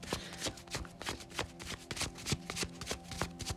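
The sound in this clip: Tarot cards being shuffled by hand: a steady run of many soft, papery flicks and slaps, with no talking.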